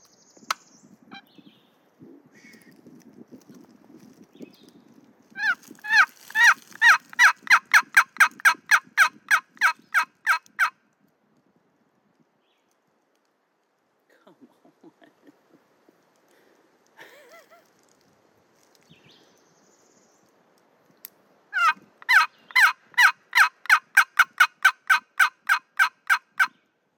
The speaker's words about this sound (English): I ain't heard a gobble in 2 weeks. All right. Can't hear that? Let's see if we can hear this.